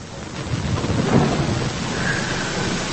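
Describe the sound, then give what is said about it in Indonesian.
Steady rain falls outside a garment workshop doorway, a loud, even hiss with a low rumbling undertone that holds throughout. “Hujan mulai mereda. Sisa hanya rintik-rintik kecil.”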